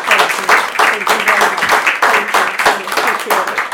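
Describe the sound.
Enthusiastic audience applause welcoming a speaker to a talk, loud, dense clapping with a quick, even pulse that holds steady from start to finish.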